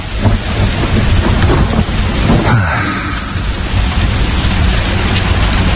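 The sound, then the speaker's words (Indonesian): Steady, heavy evening rain pours down around a small barber kiosk at closing time. The rain is loud throughout, with a low rumble of thunder partway through. “Ketika aku akan tutup, hujan mulai turun.”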